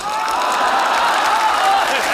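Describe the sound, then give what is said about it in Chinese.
Steady, dense clapping from a crowd, an unbroken wash of applause that stays loud throughout with a voice faintly over it. “来就来呗，还鼓什么掌？”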